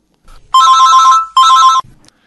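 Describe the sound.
A telephone rings for an incoming call with two loud bursts of a bright electronic ring, each about half a second long, separated by a short gap and heard alone.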